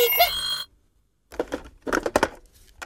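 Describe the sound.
A telephone bell rings in a brief bright burst, then cuts off into silence. A few short, noisy irregular sounds follow.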